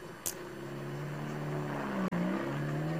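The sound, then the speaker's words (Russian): A taxi car drives along, its engine holding a steady low hum with a faintly rising tone, broken by one brief cut in the sound near the end. “Семён Семёныч в такси. Куда поедем? Домой.”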